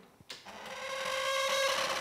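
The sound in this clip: Whirring, whining mechanism of a smoking-machine artwork that has not been oiled for a long time, starting after a click and quickly building into a steady, rattling drone with squealing tones.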